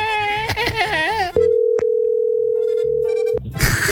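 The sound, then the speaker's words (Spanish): A telephone dial tone sounds as someone dials a phone again: a steady, unbroken mid-pitched tone holds for about two seconds with a single click partway through. A short stretch of voice comes before it. “Pero vamos a marcar otra vez.”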